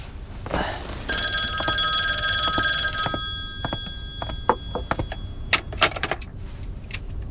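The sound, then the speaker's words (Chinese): An old-style telephone bell rings in one sustained bright metallic burst lasting about two seconds, followed by a scattering of sharp clicks and knocks. “哦，啊，不好意思，我接个电话。”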